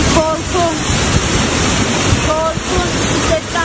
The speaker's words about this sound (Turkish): Yollar su altında kaldı. Park halindeki araçlar bile akıntıya dayanamadı. Otomobiller birer birer sürüklendi.